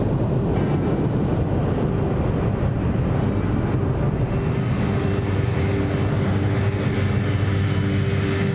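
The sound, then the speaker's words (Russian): A steady, heavy roar from an airplane landing and slowing to a stop. The rumble stays even and unbroken throughout. “Самолет останавливается. Капитан. Обычная посадка.”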